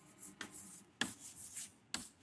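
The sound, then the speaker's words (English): Writing the word simony on a board produces a few faint scratching strokes and taps at an uneven pace, with quiet pauses between them. “I'll write that on the board, simony.”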